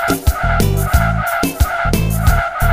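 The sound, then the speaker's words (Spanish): Car brakes screech in a sustained, steady high squeal that runs through the whole clip beneath a rhythmic musical backing with a pulsing bass line. “Los frenos del automóvil hacen...”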